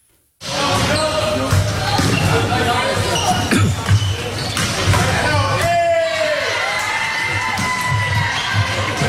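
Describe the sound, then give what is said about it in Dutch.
Indoor volleyball hall ambience. Loud thumps of the ball bounce over constant shouting and cheering from players and onlookers, starting abruptly after a moment of silence and staying busy and loud throughout. “Ja, ik begon al helemaal te glunderen toen ik het weer hoorde. Een volleybalzaal.”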